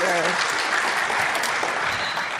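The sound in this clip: Audience applause welcoming a speaker to a morning church gathering: dense, steady clapping that holds at an even loudness throughout, with a brief voice at the very start.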